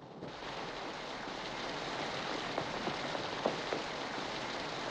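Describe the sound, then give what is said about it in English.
Rain falls steadily as a soft, even hiss, with a few faint taps of drops standing out here and there. “Ben runs through the rain”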